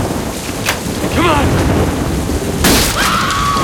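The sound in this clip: Heavy rain pounds a house rooftop in a steady, loud hiss, with a deep rumble of thunder and a sharp crack rising out of the downpour. A voice speaks over the storm.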